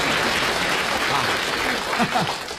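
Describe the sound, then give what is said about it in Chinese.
Applause from an audience at a comic stage performance: dense, steady clapping at an even, loud level that fills the whole clip. “大家为我鼓掌， 给他鼓掌。”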